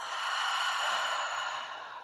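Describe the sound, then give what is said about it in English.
A deep breath is drawn in through the nose and released through the mouth during a guided relaxation exercise. It is a single long, airy rush that eases off at the end, with no talk. “Taking a deep breath in through the nose and releasing through the mouth.”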